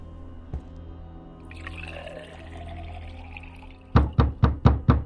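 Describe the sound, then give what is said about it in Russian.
Wine pours into a glass as a soft gurgling trickle, followed by five sharp, evenly spaced thumps. “Я пока вина налью. Мне тоже налей.”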